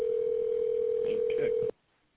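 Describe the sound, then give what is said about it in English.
A steady, single-pitched telephone tone sounds while a call is dialed from an automated phone menu, with a few faint blips near the end before the tone cuts off abruptly. “Dialing.”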